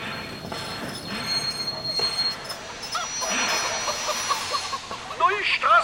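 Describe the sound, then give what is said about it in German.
A model railway locomotive runs along a turning loop of track in an unfinished section of the layout. It makes a continuous rolling rattle with high wheel squeals, and the squeals grow sharper and more chirping near the end. “Die Lok fährt jetzt in einer Zone, wo künftig ein Berg gebaut sein wird. Das ist im Rohbau fertig mit dieser Gleiswendung.”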